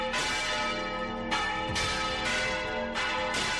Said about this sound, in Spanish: Este es el sonido del campanario del propio templo y que lleva sonando desde el año, como bien decías, 1224.